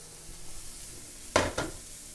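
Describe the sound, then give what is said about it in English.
Two quick scraping strokes of stirring in a pan where tofu and mushrooms are being stir-fried, brief close-set bursts over a low, steady background. “And we're just going to stir fry it. Don't have to cook it very long.”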